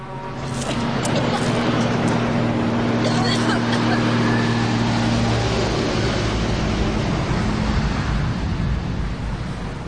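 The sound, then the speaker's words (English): A huge truck trundles past a car pulled over at the roadside, its loud, heavy engine rumble steady throughout, with a low droning hum underneath. “Thelma pulls the car up by the side of the road as a huge truck trundles past them.”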